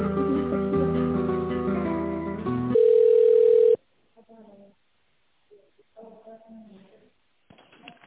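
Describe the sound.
A steady telephone line tone sounds during a call transfer, holding one pitch for about a second. Music plays before it, and brief talk follows once the line connects.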